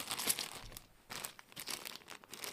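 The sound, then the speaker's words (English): A paper envelope holding a couple of Lego dice is torn and crinkled open, giving faint, irregular crumpling and rustling bursts with no talk. “I've just opened up an envelope containing a couple of those Lego dice.”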